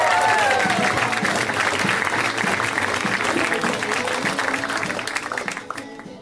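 Audience applause for a comedian at a stand-up show: dense, steady clapping from a crowd that holds loud for several seconds, then tapers off toward the end.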